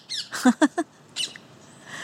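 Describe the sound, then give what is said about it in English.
Parakeets squawking in a garden in South London: a quick run of short, harsh, harmonic calls, three clustered closely, with a couple more scattered around them, all fairly faint. “recorded here in my garden in South London with the parakeets”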